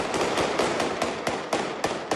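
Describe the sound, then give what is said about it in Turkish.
Rapid gunshots as police fire into the air to break up a brawl between two families. Many sharp, loud cracks come in quick succession over a dense, noisy background. “Polis kavgayı havaya ateş açarak sonlandırmaya çalıştı.”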